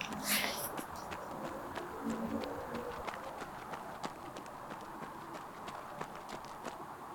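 Running footsteps of a person jogging at night, many quick, evenly spaced footfalls that keep a steady rhythm at a moderate level throughout.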